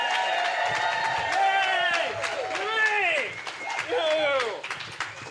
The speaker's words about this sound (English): Put your hands together for Erik Tait!